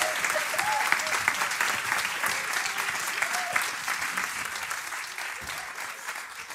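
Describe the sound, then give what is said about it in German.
An audience claps steadily as speakers come onto the stage. The dense, even applause keeps going throughout and softens slightly near the end. “gebt ihnen einen großen Applaus, wenn sie jetzt auf die Bühne kommen, für ihren Mut”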